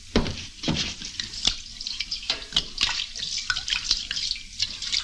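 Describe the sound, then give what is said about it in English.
Gin poured over hands to wash them makes a fairly faint, continuous splashing of liquid with scattered drips and small splatters throughout. “Hate to waste this good gin washing my hands.”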